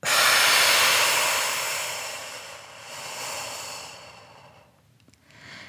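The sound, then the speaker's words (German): Deep breathing during a guided relaxation exercise, drawing air into the belly: a long, loud, airy hiss that slowly fades, a softer breath after it, then a quiet pause before another breath begins. No talking. “Wir atmen ganz tief ein in den Bauch. Halten, wenn du magst, für einen Moment und”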